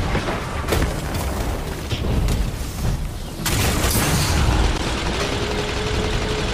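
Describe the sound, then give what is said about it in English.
Grenade launcher explosions in a multiplayer video game match. A few heavy, booming blasts rise out of a loud, dense wash of combat noise. “He's hitting us with grenade launchers. That warlock is just hitting people with grenade launchers.”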